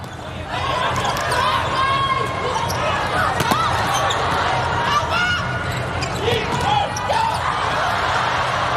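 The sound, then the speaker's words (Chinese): A volleyball is bounced and then served during a China versus Serbia match, with a few dull ball impacts under a commentator's voice and a steady roar of crowd noise. “祖比奇的发球”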